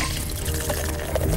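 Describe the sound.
Legend Extra Stout beer pouring in a short, steady liquid stream, with an even gurgling flow and no voices.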